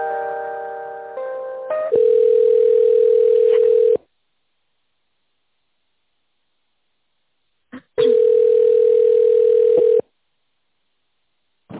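Telephone line tones during a call transfer: a short run of stepped tones leads into a steady mid-pitched tone lasting about two seconds. Silence follows, then a click and the same steady tone returns for another two seconds.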